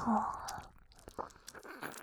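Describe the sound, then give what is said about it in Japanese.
Ear-licking ASMR mouth sounds: soft, wet licking, smacking and clicking noises, irregular and close, with a faint whisper-like breath under them. “耳なめをさせていただきます”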